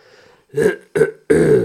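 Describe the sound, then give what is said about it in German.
A small cough from a speaker comes as three short, loud, throaty bursts in quick succession, the last one slightly longer. “Sorry, ich haben ein kleines Hüsterchen.”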